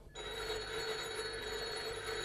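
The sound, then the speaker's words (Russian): A telephone at a factory rings with a steady, continuous electric bell that starts abruptly and holds at an even, moderate level, with no talk. “Минуточку. Алло, Султанов у телефона?”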